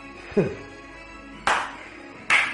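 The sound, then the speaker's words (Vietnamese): Three sharp hand claps, each a quick bright slap, spaced about a second apart over a quiet, faintly humming background. “Hắn ta vỗ vỗ hai cái tay ra chiều khen ngợi.”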